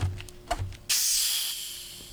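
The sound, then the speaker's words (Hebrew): A 1.5-litre bottle of zero-sugar lemon-lime soda is opened: a few soft clicks from the cap, then a sudden loud hiss of escaping carbonation that slowly fades. No one talks over it. “אני פותח בקבוק ליטר וחצי.”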